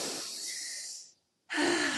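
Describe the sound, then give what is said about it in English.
A group of people drawing a deep collective breath: a long, airy inhale of about a second, a short silence, then a second, louder rush of breath. “Let's just take a collective breath. Because this is like such a big moment. So let's just inhale”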